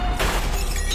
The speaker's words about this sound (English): That's the sound of a car mirror meeting an underground parking pillar.